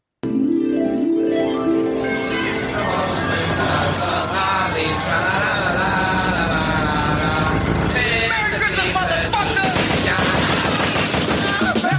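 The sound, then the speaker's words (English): Gunfire sound effect imitating a drive-by shooting: a loud, unbroken barrage of rapid automatic shots running for about twelve seconds, dense and relentless, layered over a droning tonal background. “Merry Christmas, motherfucker! Like that's a drive-by shooting.”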